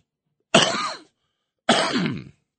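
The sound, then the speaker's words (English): Two loud, harsh coughs about a second apart, each a sudden throaty burst trailing off, with silence around them. “excuse me, I had to cough.”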